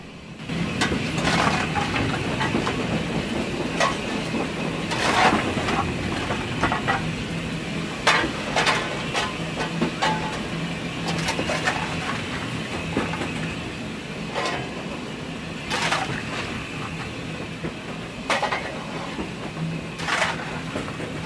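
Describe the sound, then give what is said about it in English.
A steam locomotive runs on a heritage line while the fireman shovels coal into the firebox to keep the boiler pressure up: a steady mechanical rumble and rattle, broken by many sharp scraping clanks at an irregular pace, with no talk. “I'm shoveling the coal to keep the pressure up in the boiler and maintain the water level.”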